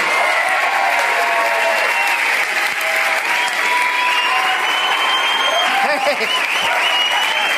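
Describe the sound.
Loud audience applause with some cheering welcomes guests onto the stage at a live comedy show riffing on the film Fast 6. The clapping is dense and steady and carries on unbroken for the whole stretch.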